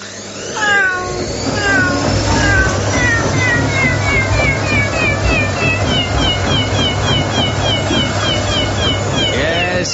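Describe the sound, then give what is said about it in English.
A tabby cat meows many times in a sound effect, over the steady low hum of a washing machine spin cycle. The meows are loud and come in a busy, overlapping run. “That was, of course, Tabby in a Spin Cycle, winner of the Radio Academy's Six Sound Effect of the Year Award 2002.”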